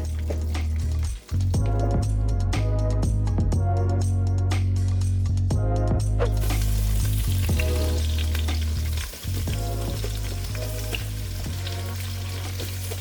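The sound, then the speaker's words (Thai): Onions frying in butter in a pan, a loud, continuous sizzle and crackle with the scrape of stirring running through it, steady from start to finish. “หัวหอมเนี่ยจะเอาให้มันเป็นสีน้ำตาลก่อน”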